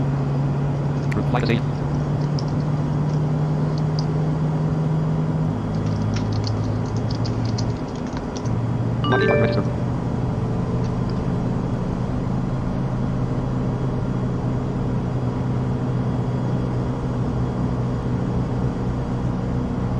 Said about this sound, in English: Start valve open, engine 2. Starter cutout, engine 1. Fuel flow, engine 2.